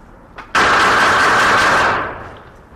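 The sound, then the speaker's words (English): A handgun fired rapidly from the hip on a firing range: a loud, dense burst of shots, too quick to count, that runs for about a second and a half before cutting off, with no voices. “First, the sidearm will be fired from the hip.”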